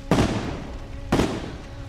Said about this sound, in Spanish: En las calles, los hombres de su padre cruzan los caminos en sus camionetas desde donde disparan.